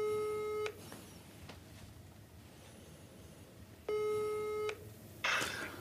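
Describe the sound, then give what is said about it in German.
Telephone ringback tones as an outgoing call is placed: two steady, buzzy tone bursts about three seconds apart over quiet background hiss, with a brief noise burst at the end. “Warte, ich ruf ihn an. Mach laut, ne?”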